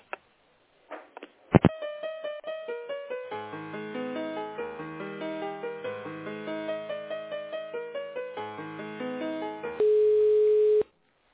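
Telephone-line tones while a call is transferred: a stepped melody of many short electronic tones in a steady pulsing rhythm, ending in one sustained mid-pitched tone about a second long.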